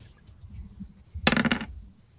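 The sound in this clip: Dice rolled for damage in a tabletop roleplaying game give a brief, moderately loud burst of rapid clattering clicks that quickly dies away after quieter low rumbling.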